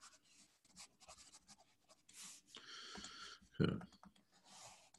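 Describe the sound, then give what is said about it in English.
A whole sentence is handwritten during a class, heard as faint, scratchy, intermittent pen strokes with short pauses and soft breathing between them. “Right, let's just write the whole sentence so people don't get confused.”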